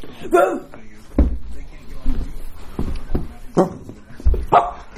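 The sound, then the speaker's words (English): A dog barking several times in short, sharp bursts mixed with higher yips and whimpers, while people talk. “Can you get him to bark”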